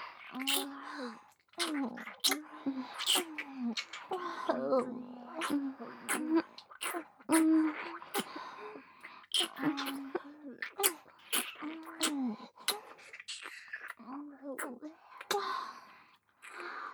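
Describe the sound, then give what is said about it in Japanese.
Several voices take turns kissing a cheek, making many short, crisp lip smacks scattered across the stretch. Soft, breathy speech fills the gaps between them. “じゃあ、私はほっぺに。 では、私も。”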